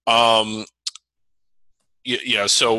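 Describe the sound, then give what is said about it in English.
Two short, sharp clicks of typing on a computer keyboard fall in a brief pause, with talking before and after them. “but still I got to type. I'm a little slow, so keep talking.”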